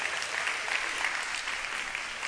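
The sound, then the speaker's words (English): An audience claps during a sermon, a steady, even wash of many hands that stays fairly faint and unbroken throughout. “But see, yeah, you can clap on that. Go ahead and clap on that. Go ahead and clap on that.”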